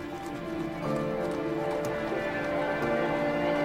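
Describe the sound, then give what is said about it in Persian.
Hooves of a horse-drawn carriage clip-clop outside a pharmacy in a steady, continuous rhythm that grows slightly louder after the first second, over a sustained tonal hum. “سوار کالسکه میشه، میره.”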